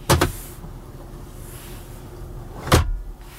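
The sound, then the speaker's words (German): A car's glovebox opening electrically after being triggered from the dashboard display: a quick double click, a steady low motor whir, then a firm thud as it finishes. “Auch um das Handschuhfach zu öffnen, brauche ich das Display.”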